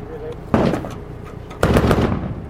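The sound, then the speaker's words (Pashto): Gunfire exchanged between Afghan soldiers and Taliban fighters on the outskirts of Tarinkot at dusk: two loud bursts of rapid shots, each followed by a dense rumbling wash that slowly fades. “د ماښام تیاره لا نه وي خپره سوې، خو د ترینکوټ ښار په څنډو کې افغان سرتیری او طالبان پرې یو بل ډزې پیل کړي.”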